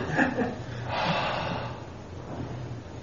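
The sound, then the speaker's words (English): A person breathes out audibly in one long, soft, airy exhale lasting about a second, with a few short breathy sounds just before it. “That's a conveyance that's even deeper. Breath, lungs.”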